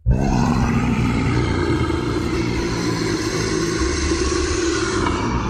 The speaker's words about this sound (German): Nach Drachen. Drachen sollen sehr lange im Siebengebirge gelebt haben, zumindest der Legende nach.